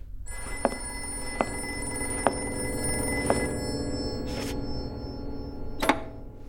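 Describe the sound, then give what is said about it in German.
A telephone rings in a detective drama, a sustained bright ringing tone broken by a few sharp, evenly spaced clicks, heard alone without talk. “Wer ist das? Ich habe nicht die leiseste Ahnung. Ich hebe ab. Nein, lassen Sie Miss Baxter rangehen.”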